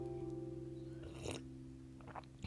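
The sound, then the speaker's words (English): A sip from a cup of tea: a brief, soft slurp followed by a few faint mouth noises, all sitting under a steady low electrical hum. “I've got a cup of tea here, so I'm just going to have a drink.”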